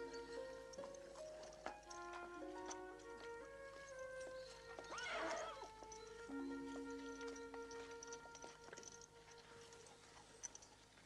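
A war horse is heard faintly: soft hoof clops and a brief whinny midway, set against sustained tonal sounds, all quiet.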